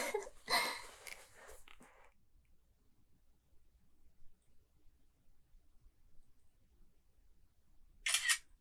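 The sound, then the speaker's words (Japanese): A camera shutter fires while taking photos. A quick cluster of crisp clicks comes at the start, then near silence, then one more brief click burst near the end. “よし、撮るぞー。”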